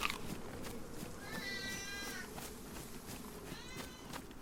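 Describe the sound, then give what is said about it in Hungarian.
A cat meows twice in the background, faint and drawn out, under a steady hiss. “Közben itt Oberont hallhatjátok, ahogy nyávog a háttérben. Természetesen a cicának nincsen semmi baja”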